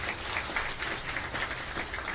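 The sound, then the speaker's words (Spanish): Congregation applause during a church service, sounding as a soft, even, continuous patter of many hands clapping at a low level throughout. “Dale un aplauso al Rey de Reyes y Señor de Señores.”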